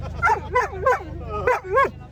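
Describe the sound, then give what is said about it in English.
Short, high yelping barks from a year-old Labrador at an animal show come in a quick run of three and then two more after a pause, over a faint low hum. “Champion dog today was a Labrador from Swarskwy in Tankerness”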